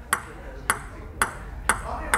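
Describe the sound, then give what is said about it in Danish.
Ping-pong ball struck by a single person playing table tennis alone, with five sharp, bright clicks spaced at a fairly even rhythm over a quiet background. “Og det er lyden af mig, der står og spiller bordtennis med mig selv.”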